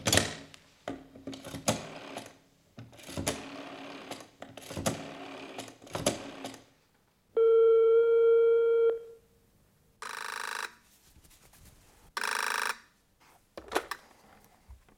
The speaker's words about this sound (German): Hier ist das Telefon. Rufen Sie ihn gleich an.